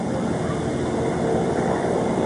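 Helicopter engine and rotor noise forms a steady, loud, dense rumble that runs unbroken through the whole clip with no clear pauses.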